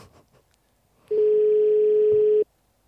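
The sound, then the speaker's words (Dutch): Telephone call tone heard while dialing a number: one steady, fairly loud, mid-pitched tone holding for a little over a second, with near silence before and after. “we zijn met uw nummer aan het bellen, want de mijne werkte niet”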